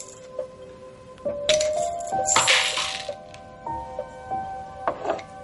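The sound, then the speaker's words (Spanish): Pills are tipped out of an opened jar, giving a few crisp clicks and short, rattling bursts of small hard pieces spilling, all fairly quiet with gaps between. “Coge un frasco con más pastillas, lo abre y lo vacía.”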